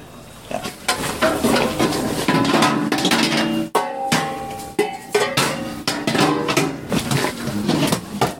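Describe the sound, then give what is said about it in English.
Pots and pans clatter as someone searches a kitchen for a pan lid: many metallic clanks and scrapes, some with a ringing, squeaky edge, in an uneven run with a short break in the middle. “Pan doesn't have a lid. or does it have one somewhere? There we go.”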